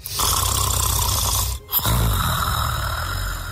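A woman snores loudly with a long rasping, nasal rattle that breaks off for a brief pause, then a fresh snore starts and drones on steadily.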